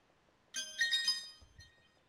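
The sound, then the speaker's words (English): A new cell phone ringing, a short burst of bright, high electronic chiming tones that lasts under a second and then fades. “that's my phone screaming at me. Yeah. Anyway, I just got a new cell phone today. It's funky.”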